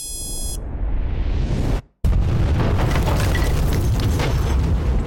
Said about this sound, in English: bar explodes as he leaps away from the fireball